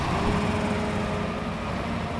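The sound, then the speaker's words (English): Steady low engine rumble from a pickup truck straining to tow a twisted, mud-covered wrecked car off the road in pouring rain and chill wind, heard under a constant broad hiss with no voices. “In the pouring rain and chill wind, a pickup truck struggles to get a twisted lump of mud-covered metal that was once a car off the road.”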